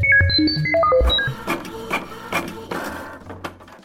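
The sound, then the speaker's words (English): A comedy sound effect of a riddle machine firing up: a quick run of electronic beeps and tones hopping up and down in pitch, then a series of clattering mechanical bangs over a busy whirring, like a jammed printer. “Oh, I hear Carl, the station manager, firing up the riddle machine in the back.”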